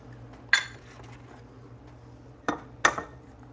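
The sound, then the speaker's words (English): Eggs cracked against the rim of a small mixing bowl give three sharp clinks, one early and then two close together near the end, over a low steady background hum. “I'm going to crack the eggs into a little bowl so that if I get little bits of shell in there, they don't go all the way into the mix.”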